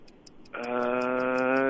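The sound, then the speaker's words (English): A countdown clock ticks in a timed word-category game show round, with rapid, evenly spaced high ticks running throughout, joined partway by a sustained buzzy tone that holds beneath them. “30 seconds on the clock.”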